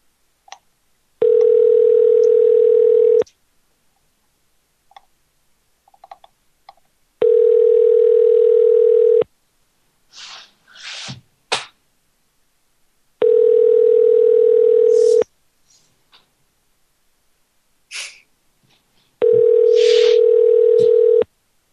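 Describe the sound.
A telephone line tone while a call is being placed: four long, steady, mid-pitched tones of about two seconds each, separated by longer pauses that hold a few brief, faint clicks and noises.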